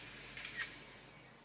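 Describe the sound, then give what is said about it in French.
A camera shutter snaps twice in quick succession as a photo is taken, a soft, quiet double click with nothing else around it. “J'ai pris une photo avec ce maillot de malheur, qui va devenir le témoin de mon évolution.”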